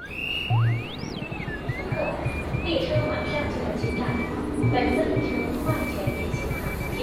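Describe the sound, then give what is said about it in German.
A subway train carriage carries a crowd of passengers, with a steady low rumble of the moving train and indistinct murmuring voices throughout, swelling slightly toward the end. “In der U-Bahn eine sanfte, natürliche Rangelei. Die Menge bewegt sich unerwartet reibungslos.”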